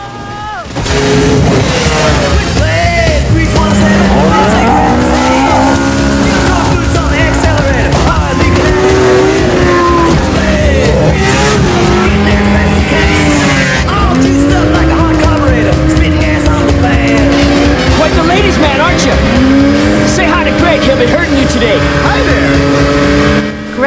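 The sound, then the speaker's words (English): Snowmobiles race off in a chase, their engines roaring loud and unbroken, with the whining pitch surging up and down as the machines accelerate and ease off. “Hal steals Chuck's skidoo and races off. He is followed by Chuck and his friends on the remaining two skidoos.”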